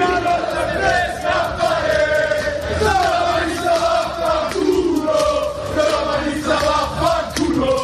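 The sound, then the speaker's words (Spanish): Lazio football fans chant and shout through the streets of central Madrid at night. The crowd roar is dense and continuous, with sung chant lines rising out of it, and it stays loud and unbroken from start to finish. “De todos modos, estos aficionados no han venido solo a hacer turismo y este era el sonido de las calles del centro ayer por la noche.”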